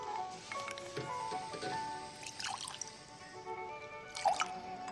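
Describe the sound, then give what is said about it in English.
Liquid poured from a bottle into a glass makes faint trickling and dripping sounds, with a few brighter splashes near the end. “She pours out the rest of the bottle.”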